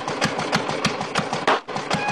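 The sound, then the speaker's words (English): The engine of a small early car, steered by a tiller, sputters along Washington Boulevard at two in the morning: uneven rhythmic chugging bursts, with a brief stumble and dip near the end. “2 o'clock in the morning, the little car sputtered along Washington Boulevard.”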